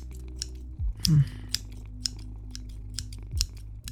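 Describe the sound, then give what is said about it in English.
Crisp metallic snips from a pair of scissors cutting hair: several short, sharp clicks at an uneven pace, with a few slightly longer slicing strokes, heard alone. “It's the scissors, the pair of scissors. You know that you cut my hair with?”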